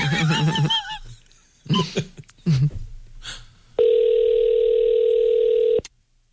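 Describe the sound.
A telephone ringback tone sounds while calling a company's corporate office, one steady, loud, even tone lasting about two seconds. A few brief voices and noises come before it.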